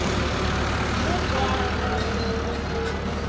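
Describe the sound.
Engine rumble of a vintage vehicle pulling away from an oldtimer meeting at Prickingshof, a steady, loud, low drone that holds without a break, with murmured voices in the background.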